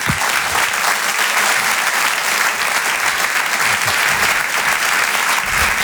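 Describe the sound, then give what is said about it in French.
Loud, steady applause from an audience welcoming a comedian onto the stage, an unbroken wall of clapping for about six seconds. “Bonsoir, merci pour votre accueil, merci pour vos applaudissements, ça me touche vraiment beaucoup”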